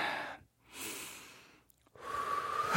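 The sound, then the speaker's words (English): A person takes deep breaths, heard alone as a few long, airy, hissing breath sounds separated by short silences, the last one the loudest. “So I'm going to take a deep breath.”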